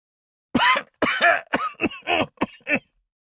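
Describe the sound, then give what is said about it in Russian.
Harsh, loud coughing from a man on the stone floor of a dim hall, a rapid series of several rasping bursts with short silent gaps between them. “Громкий кашель эхом разнесся в полутьме зала.”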